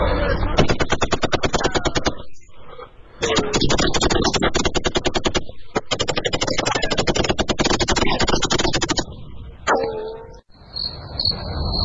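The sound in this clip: Rapid automatic gunfire traded between police and armed smugglers: long, dense strings of shots broken by brief pauses, loud throughout, with a voice heard briefly near the end.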